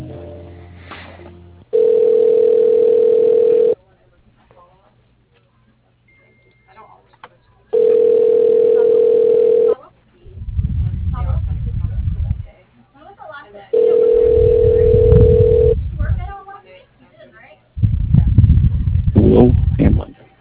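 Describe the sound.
Ringback tone of a telephone line ringing while a call is transferred to voicemail. Steady, mid-pitched tones of about two seconds repeat at regular intervals over a narrow, phone-line sound, with low, muffled rumbling bursts in between.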